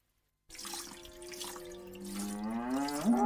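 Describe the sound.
A cow lows during milking, a drawn-out moo whose pitch climbs toward the end, heard over a continuous wet dripping and spattering.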